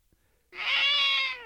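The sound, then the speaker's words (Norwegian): A cat meows in a backyard: after a brief quiet, a single loud, drawn-out meow with a slightly falling tail sounds alone. “Ja, men er det katter i bakgården fremdeles?”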